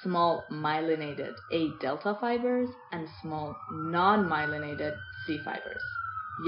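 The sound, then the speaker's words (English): Ambulance siren wailing faintly beneath a person speaking, near a hospital in a big city; a thin, high, steady tone with slight wavering that runs under the talk. “I live in a Big Apple, and what you're hearing is ambulance, because I also live right across from the hospital.”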